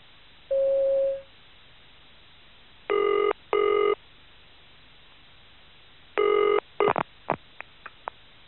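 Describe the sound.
A telephone rings in two double bursts before an answering machine picks up, preceded by a single steady tone and followed by a few sharp clicks and short blips.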